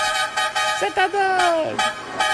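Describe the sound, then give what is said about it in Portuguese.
A truck horn sounds a brief stuttering toot and then one sustained, tonal blast of about a second that droops in pitch as it ends, set over a busy background of other sound. “Chama na buzina”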